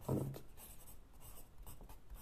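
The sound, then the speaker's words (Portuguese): A pen writes, making a faint run of short, scratchy strokes that begins with one louder scrape and then continues in quieter, uneven scratches. “deixa-me só escrever também aqui”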